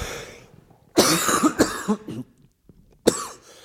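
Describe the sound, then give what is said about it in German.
A coughing fit: a burst of several harsh, loud coughs in close succession, a short pause, then one more sharp cough. “oh, Scheiße, jetzt kriege ich hier echt Hustenanfälle.”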